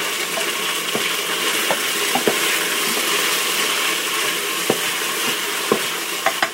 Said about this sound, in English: Ah, oh, it's nicely caramelized. One more stir.